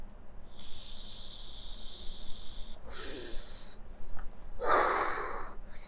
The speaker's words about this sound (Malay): aku sedut pot jap